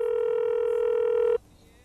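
An incoming telephone call sounds as one steady, mid-pitched electronic tone that holds unbroken for over a second and then stops abruptly, leaving faint background.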